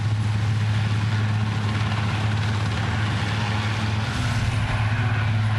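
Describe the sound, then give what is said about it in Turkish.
A rescue helicopter flies over an aircraft crash site during a search-and-rescue operation, giving a steady, loud droning hum with a low throbbing engine tone that holds constant throughout. “Şimdi ise helikopterle bu noktadan güvenli bölgeye götürülecekler.”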